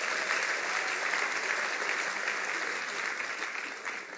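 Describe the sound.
Audience applause at a church gathering, a dense, even patter of many hands clapping that holds steady and then eases slightly at the end.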